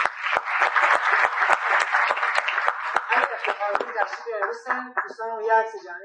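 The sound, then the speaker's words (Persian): Applause from the audience at a workshop on cryptocurrency mining and trading: loud, dense clapping for about four seconds that thins out, with voices rising over the final seconds. “افتخار خودتون یه دست بزنید”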